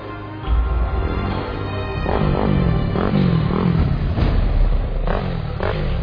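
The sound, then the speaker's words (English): Baja race motorcycles, including a Honda team bike, leave the start line with a loud, steady engine roar and repeated revving surges that climb in pitch. “Chris Blaze, the Honda B team, leaves the line at 6:33.”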